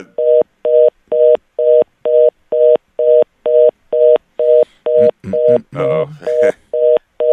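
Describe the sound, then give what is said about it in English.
A telephone line gives a dial-tone signal as a long run of rapid, evenly spaced beeps, loud and regular, with a voice briefly cutting in partway through. “we're getting a dial tone. Somebody didn't pay their bill.”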